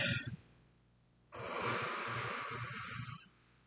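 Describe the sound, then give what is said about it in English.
A voice imitates a very long exhale, a sustained breathy rush of air lasting about two seconds. A short vocal sound comes before it, and the breath fades out gradually at the end. “He takes the longest exhale you've ever heard in your life. Just like...”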